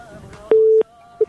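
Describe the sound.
Telephone line tone while a call is being connected: one steady, flat beep lasting about a third of a second, then a much shorter blip. Both sit alone over a faint background hum.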